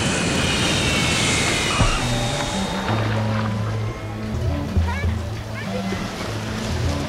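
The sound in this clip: Airplane engine noise heard from inside the cabin during the approach to landing: a steady, broad roar that is loudest in the opening seconds, then gives way to quieter, more varied sound.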